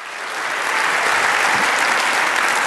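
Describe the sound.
An audience applauds to welcome a pastor: dense, steady clapping swells over the first second, then holds loud and even to the end.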